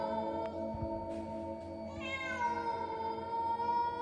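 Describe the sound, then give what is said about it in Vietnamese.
A neighbour's cat meowing beside a house at night: a long, drawn-out, wavering meow with bright harmonics, rising in strength partway through. It is fairly loud and heard alone. “Đồng thời lúc này tiếng con mèo nhà hàng xóm nó cứ ngoeo ngoao kêu ở bên hông nhà.”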